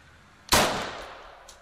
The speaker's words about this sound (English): A Free Army commander called Abu Layla is testing out a sniper rifle